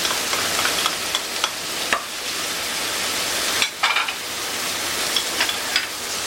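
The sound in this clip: Meat sautéing in a pan: a loud, continuous sizzle with crackling pops and occasional scraping stirs running throughout, no voices.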